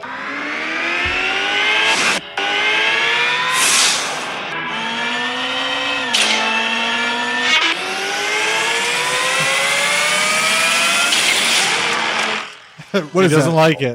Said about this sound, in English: This is the sound of the simulated shifts.